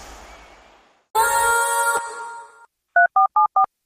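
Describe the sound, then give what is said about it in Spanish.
A telephone number is dialed: a steady dial tone hums for over a second, then a pause and a quick, even run of five bright keypad beeps. “Marqué 713 Abogado porque tuvimos un choque.”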